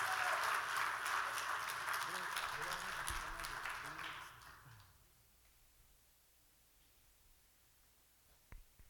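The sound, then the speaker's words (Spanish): Audience applause at a religious gathering: loud, dense clapping for about five seconds with a voice over it, then it fades out, leaving near silence broken by a brief knock near the end. “Denle un aplauso a nuestro Señor Jesucristo,”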